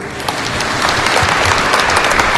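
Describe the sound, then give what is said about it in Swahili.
Applause rises at an official ceremony for drivers attended by a guest of honour, a loud, continuous wash of many hands clapping with scattered sharper claps standing out. “Makofi mengi tafadhali. Makofi yaendelee mengi tafadhali.”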